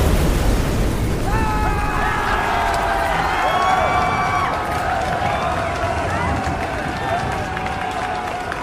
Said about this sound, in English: Well, that's a nuke blast.